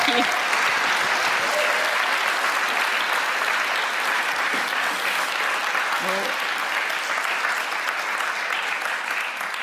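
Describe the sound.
Audience applause welcoming a speaker to the stage at a gathering, a loud, dense, sustained patter of clapping that holds steady for the whole stretch, with a few brief voices underneath.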